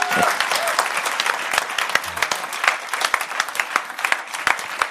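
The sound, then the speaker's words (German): An audience breaks into applause for a speaker at an event, a continuous, dense patter of many hands clapping at steady loudness throughout. “deswegen einen Applaus für Mr. Perry.”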